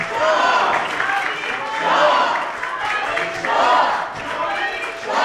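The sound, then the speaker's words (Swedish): Swedish members of parliament and audience members applaud Prince Reza Pahlavi, a dense crowd roar that swells and falls in several waves, with shouting voices rising over the clapping. “Pahlavi applåderas av svenska riksdagsledamöter, och några i publiken ropar också Javid Shah, alltså länge leve kungen.”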